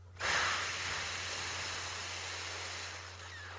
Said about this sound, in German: Und dann beginne einmal durch die Nase einzuatmen und durch den Mund aus, indem du sowas wie ein F machst.